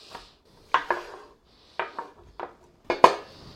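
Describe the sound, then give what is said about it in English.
Sharp knife knocks as a bell pepper is chopped into little bits on a cutting board, coming as a few irregular taps with short pauses between, with no talking. “Like I said, any pepper will do. Chop it up into little bits.”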